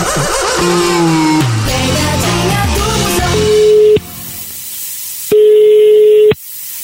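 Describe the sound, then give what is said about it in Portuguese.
A telephone call ringing out: a brief run of stepped electronic tones, then two long, steady ringing tones at one pitch, separated by a short silent gap, loud and clean with no talk. “Eu vou ligar agora pra Celinha”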